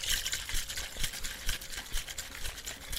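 Cocktail shaker dry-shaken with egg whites and no ice, producing a faint, fast, uneven sloshing rattle with soft repeated pulses throughout.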